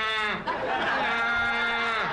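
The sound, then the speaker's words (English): A voice imitates a donkey braying in a bedroom with a strained, nasal, sustained tone lasting about two seconds that drops in pitch at the end. “I thought I saw a donkey in my bedroom. And I'm waking up the wife because I didn't know if it was reality. And it's looking at me going,”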